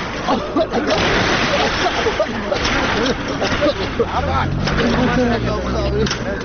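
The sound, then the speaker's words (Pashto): Engine of a large, container-like truck approaching: a low droning hum rises into clear tones in the second half under dense, noisy background sound, with people talking. “والکان دا د موټر راځئ. هله زر ور پورته شئ”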